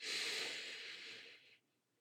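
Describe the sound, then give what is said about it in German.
A deep breath drawn in during a guided breathing exercise: a steady, airy hiss that lasts about a second and a half, eases off slightly, then cuts off into near silence. “Und ein letztes Mal atme ein”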